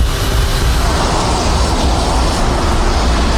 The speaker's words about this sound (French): L'enregistreur de paramètres techniques révèle qu'il met les gaz.